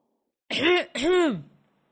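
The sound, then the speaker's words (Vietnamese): A father's throat clearing in a home, a voiced two-part 'ahem' of two short, close bursts, fairly loud and heard alone. “Bố Diễm hắng giọng mời Nam ngồi.”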